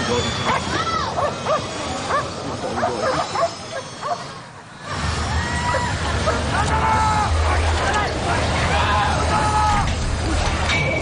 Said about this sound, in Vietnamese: Ngay lập tức, chó nghiệp vụ triển khai truy đuổi, phối hợp cùng cán bộ chiến sĩ khống chế, bắt giữ thành công các đối tượng.